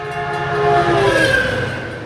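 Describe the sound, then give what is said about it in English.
A massive silver commuter train hurtles through a level crossing, its loud, sustained horn blaring over a heavy rolling rumble that swells and then eases slightly. “They watch as the massive silver commuter train bears down and then hurtles through the”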